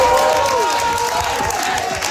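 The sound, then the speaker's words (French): Supporters cheer and applaud for a Parti québécois candidate after his election win in Abitibi-Est, a dense, continuous roar of crowd noise with overlapping shouts and clapping holding steady throughout. “Acclamé par ses militants après sa victoire, Stéphane Tremblay”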